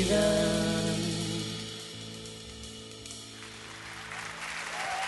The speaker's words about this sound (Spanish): Un aplauso para Jay de la Cueva.